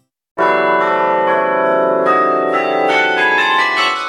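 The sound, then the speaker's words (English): Carillon bells ring out in the Belgian town of Mechelen, a loud wash of overlapping metallic tones that begins suddenly and rings on steadily, with fresh strikes layering new notes over the sustained ring and no voices. “The bells of the Carillon in Belgian town of Mechelen, or Malines, as it is called in French.”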